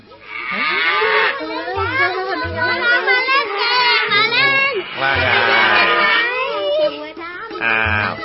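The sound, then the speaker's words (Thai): A black cow moos in a village: several long, loud, wavering calls, with voices mixed in around them. “พวกเด็กเองก็รักวัวดำด้วยเช่นกันเวลาที่วัวดำมาเดินเล่นอยู่ในหมู่บ้าน”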